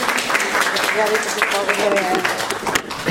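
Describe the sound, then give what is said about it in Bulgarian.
Audience applause fills the room as the chair of Bulgaria's National Assembly is introduced at a formal gathering with children present. Sharp clapping rattles steadily throughout, and a voice briefly rises over it. “Моля за вашите аплодисменти.”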